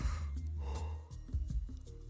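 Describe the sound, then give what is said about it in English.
A person yawns in a long, low, voiced exhale of about a second, followed by softer, breathy vocal sounds. “Excuse me yawning.”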